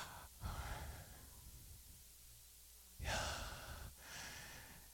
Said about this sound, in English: But it's the sound of our breathing.